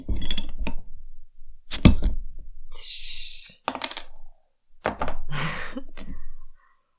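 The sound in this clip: A bottle of caffeinated, fruit-scented drink is opened with a series of separate clinks and knocks, a short airy hiss, and more handling sounds. The bursts are loud and come between brief silences.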